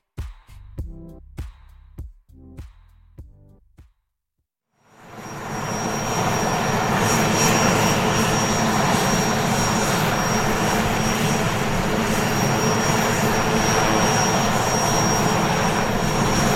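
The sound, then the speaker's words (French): Steady, heavy turbine roar of a Puma military helicopter arriving in northern Mali during a French army operation. It swells up out of a short silence and holds loud, with a thin high whine on top; a few short struck tones come before it. “C'est notre hélicoptère qui arrive. Oui, voilà, c'est l'hélicoptère, donc le Puma qui va nous amener sur la zone des opérations.”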